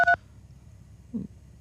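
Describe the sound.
A single short telephone keypad tone as a radio caller accidentally presses a button on the phone: a brief, bright beep at the very start, then near quiet.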